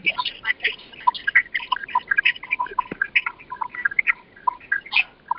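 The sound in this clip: Birds chirping and calling on an online group call: many short, bright chirps in quick, irregular succession, fairly loud, with no clear voices over them.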